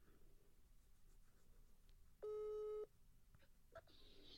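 A single steady ringback tone sounds on a phone line while a friend is being called. The one short beep is faint, over a low hiss of background noise.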